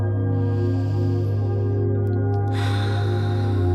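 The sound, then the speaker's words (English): A slow, deep breath drawn in for relaxation before sleep: a soft, airy inhale lasting about two seconds over steady tonal music, then a second breathy rush of air near the end. “So let's take 3 deep breaths in. That's 1.”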